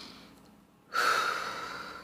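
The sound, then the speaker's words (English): One deep breath: near silence, then a sudden soft, airy rush of breath that swells quickly and tapers off slowly. “So deep breath.”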